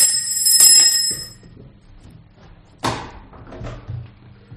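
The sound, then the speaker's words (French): A small hand bell rings in a general's household to summon a servant. It is a bright, high-pitched jangle lasting about a second, followed after a quiet pause by a sharp clunk and faint shuffling. “Madame la générale a sonné.”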